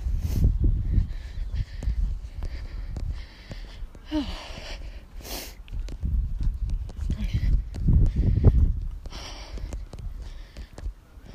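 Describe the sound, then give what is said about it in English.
Quick footsteps and heavy breathing from someone walking fast, with a steady run of soft thuds and breaths over a low, rumbling background. “Just need a breath. I don't know why I feel like I'm walking really fast, but I don't know if I am.”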